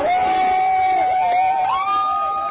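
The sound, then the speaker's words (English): Protesters in Portland cheer after federal troops leave the area: a loud crowd roar with a sustained shouted or whooping voice riding on top, holding a steady pitch and then stepping up near the end. “Protesters in Portland cheered after federal troops left the area.”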